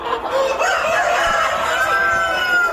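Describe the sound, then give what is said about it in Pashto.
Chickens and roosters on a large farm in Bandiyan village, Ghazni province, where thousands of native-breed birds are kept, raising a steady, dense chorus of overlapping clucks and crowing at an even, fairly loud level with no talking. “دلته د وطني چرګانو یو لوی فارم دی چې زرګونه چرګي چرګان پکې ساتل کیږي”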